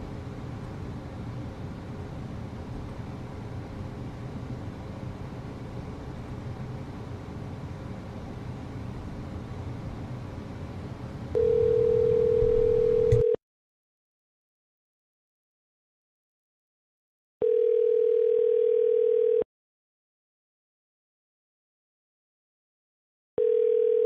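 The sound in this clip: Telephone ringback tone on a call back: about eleven seconds of steady hiss, then a steady two-second ringing tone that repeats with long silent gaps, three bursts in all, the last one cut short.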